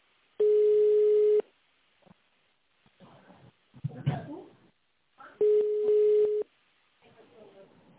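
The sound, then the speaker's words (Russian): Telephone line ringback tone plays while a call is being transferred to an operator: two long, steady mid-pitched beeps about a second each, separated by a pause with faint muffled noise. “Ваш звонок переводится на оператора.”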